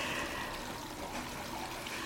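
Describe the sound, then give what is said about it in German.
Water splashes and trickles steadily from a small tabletop fountain, a faint, continuous babbling hiss without pauses or voices. “Viele finden das Wasserplätschern beruhigend.”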